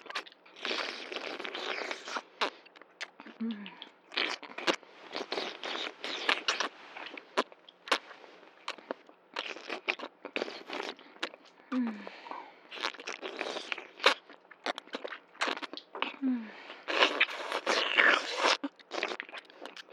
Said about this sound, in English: Do you like the sound of my sucking?